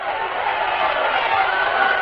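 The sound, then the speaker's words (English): Thousands of Nashville people cheering make a broad, continuous crowd roar, steady and fairly loud from start to finish, with no single voice standing out. “The visit of the old hero from France came to a close, and the voices of thousands of Nashvillians cheered him on his way.”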